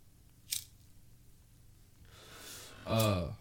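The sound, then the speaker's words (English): A lighter flicked to light a blunt gives a sharp single click, then a soft rushing hiss, followed by a brief breathy vocal sound, all fairly quiet. “Sorry, I'm lighting the blunt right now.”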